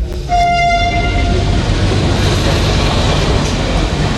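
Train at Bologna railway station: a brief horn toot near the start, then the steady, loud rumble of rolling wagons.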